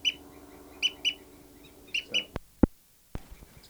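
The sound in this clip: Bird fight calls, given by a female bird during a fight, come as short, sharp, high chirps repeated several times in loose pairs. A few crisp clicks follow near the end over a faint steady background.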